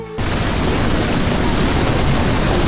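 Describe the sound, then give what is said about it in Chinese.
Fighter jet flying overhead, heard as a loud, dense roar that cuts in abruptly after a brief moment and then holds steady and broad to the end. “哇，是战斗机！”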